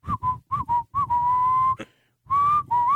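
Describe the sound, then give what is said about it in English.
A person whistles a clear, steady tone: a few short notes, then a long held note, a brief silence, and two more notes, with faint breath noise underneath. “Can you whistle?”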